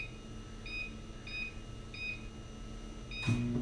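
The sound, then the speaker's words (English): A microwave oven's keypad gives four short, high beeps as it is set to 30% power for 10 minutes. After the last beep, the oven's low running hum starts. All of it is faint. “All right, into the microwave. And we're going to do 30% power. Yep. Let's see, cook power, 30%. And cook time, 10 minutes.”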